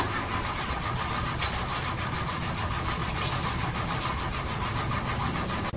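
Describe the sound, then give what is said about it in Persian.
A car engine cranks but fails to start, a steady rapid churning rhythm that continues without catching for several seconds, with no voices. “آقا استارت نمیخوره.”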